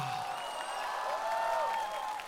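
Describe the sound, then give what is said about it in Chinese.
Audience applause following a pipa-accompanied musical performance: a faint, even wash of clapping that lasts the whole clip, with a voice sounding over it. “来，掌声给窦靖童。”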